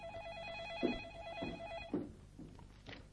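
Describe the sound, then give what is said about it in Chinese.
A telephone bell rings with a steady, warbling electronic trill that repeats evenly on a fixed pitch, accompanied by a few soft thuds. “突然响起了电话铃声，吓了两个人一跳。”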